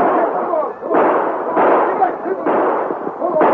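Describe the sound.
Gunshots fired from a stopped train at horseback riders fleeing down the trail, heard as about four dull, heavy reports in quick succession, each one blurring into the next.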